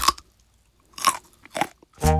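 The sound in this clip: Crisp crunches of teeth biting into a piece of raw carrot come in a few separate bursts spaced by quiet pauses. The final bite sounds fuller and longer.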